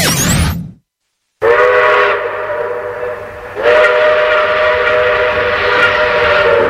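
A steam train whistle sounds as a train departs, with loud, long, sustained blasts that follow a brief silence and swell stronger toward the end.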